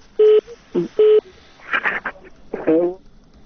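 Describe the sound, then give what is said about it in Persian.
Telephone line tones from a call that has just been cut off: three short, steady beeps, followed by brief muffled voice-like sounds. “فکر کنم تلفنی تلفن قطع شد.”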